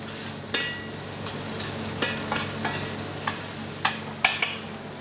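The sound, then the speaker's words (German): An egg with chives is briefly fried and stirred in a pan: a soft sizzle runs underneath while several sharp scraping clicks of the utensil against the pan come at irregular intervals. “wenn er es ein bisschen würziger will, ein Schnittlauch dazu. Dann ein Ei und dann rösten wir es noch einmal ganz kurz mit.”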